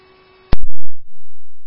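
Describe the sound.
Fire dispatch alert tones over a radio: a faint, steady buzzy tone gives way to sharp loud clicks and a heavy, distorted low droning burst that runs to the end.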